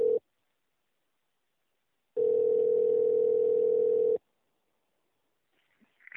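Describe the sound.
Telephone dial tone on a line placing a call to Coral Gables: a brief blip of steady tone, then a loud, unbroken two-second hum, followed by near silence with faint small sounds at the end.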